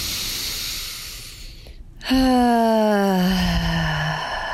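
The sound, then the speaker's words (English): A deep breath during a guided relaxation exercise: a breathy stretch, a brief pause, then a long voiced sighing exhale that slowly falls in pitch. “I want you to take a deep breath into this area of your body. Once more.”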